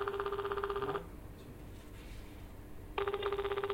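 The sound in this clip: Ringback tone of an outgoing telephone call waiting to be answered: two steady, electronic ringing bursts separated by a pause of near silence, the second starting after about three seconds.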